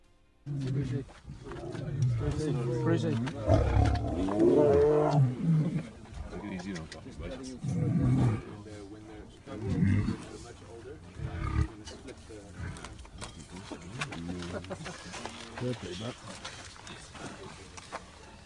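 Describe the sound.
Lions roaring in a cave: deep, rumbling roars repeat in several loud bursts across about eighteen seconds, easing into lower growls toward the end.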